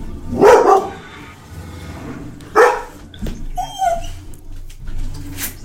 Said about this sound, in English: shut that dog up